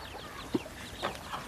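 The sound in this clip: Chickens cluck softly, giving a few brief, faint clucks over a low, steady background.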